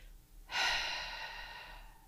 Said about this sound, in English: So if I demonstrate a difference between a normal exhalation